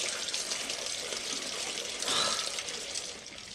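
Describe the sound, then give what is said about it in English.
Running water from a kitchen sink tap as a hand is rinsed under it: a steady, soft, hissing flow that continues throughout with no voices. “She rinses off her hand in the sink.”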